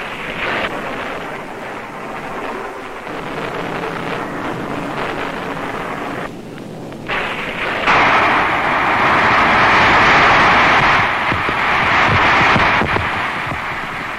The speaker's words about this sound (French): L'avant-dernière explosion. Oui. Bon, normalement, tu pars après les grosses explosions.